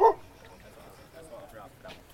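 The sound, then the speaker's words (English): A dog barking at firefighters: a single sharp, loud bark at the very start, followed by quieter sounds with faint talking underneath. “stop barking at the firefighters.”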